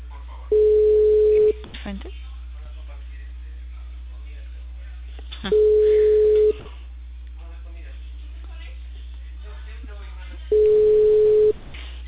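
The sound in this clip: Ringing tones of a telephone call placed to a base that goes unanswered: three steady, single-pitched tones about a second long, repeating at even intervals over a constant low hum and muffled background voices.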